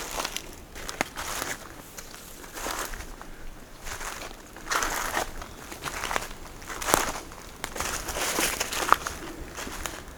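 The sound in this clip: Footsteps crunch along an autumn path in a steady series of many soft, crackly, rustling treads at an even walking pace, with no voices.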